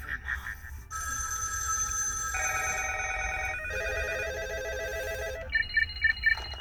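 A flip phone rings with an electronic ringtone: steady tones stepping between pitches, then rapid, louder pulsed beeps near the end.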